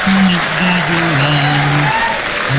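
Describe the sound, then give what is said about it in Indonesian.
Audience applause, dense and continuous clapping that stays loud throughout, with a voice sounding over it. “Okey, kita tepuk tangan, bagi tepuk tangan, bagi semangat sikit.”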